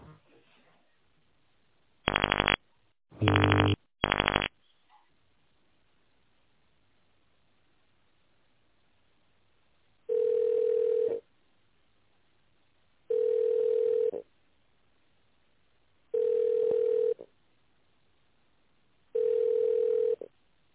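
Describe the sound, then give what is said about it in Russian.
Telephone tones play while a call is transferred to a sales department: three short bursts of dialing tones come first, then after a pause four evenly spaced ringback tones, each about a second long, steady and mid-pitched. “А сейчас я переключу вас на отдел продаж.”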